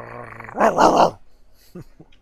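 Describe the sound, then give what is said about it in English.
A dog growls, starting with a low, droning rumble that swells into a loud, rough burst of about half a second, followed by two faint, short sounds. “Does this dog appear aggressive?”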